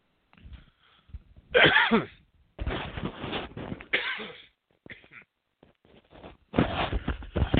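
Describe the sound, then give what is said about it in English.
A person coughs harshly after choking, in a series of uneven bursts separated by short pauses, with the last burst the longest. “excuse me, just choked on myself.”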